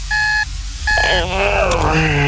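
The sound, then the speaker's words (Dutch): An alarm clock goes off with two loud, bright electronic beeps in a row, followed by a dense swell of overlapping electronic tones. “De wekker gaat. En gaat.”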